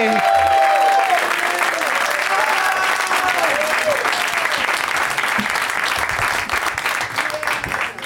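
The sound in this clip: Audience applause welcoming guests onto a stage: loud, dense clapping from a crowd with a few cheering whoops near the start, holding strong before easing slightly toward the end.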